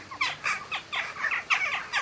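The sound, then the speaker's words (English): Calls of a jackdaw, a compact gray European crow, in a rapid series of short, sharp, bright chirps repeated at a quick, even pace, fairly faint and alone. “The catchy name Jackdaw belongs to a European bird that looks like a compact crow drawn in shades of light and dark gray.”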